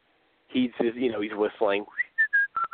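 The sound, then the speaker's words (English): A person speaks briefly, then imitates whistling with a rising glide followed by a few short, clear whistled notes in a mid-high pitch. “he's whistling, he's doing his kind of thing”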